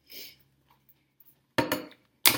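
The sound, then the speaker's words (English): Metallic clanks from a manual can opener working on a can of tomato sauce: a faint clink at the start, then two louder rattling bursts separated by quiet. “And I'm going to open this up. Take a second because it's opening cans and takes a little bit. Don't have an electric one, so.”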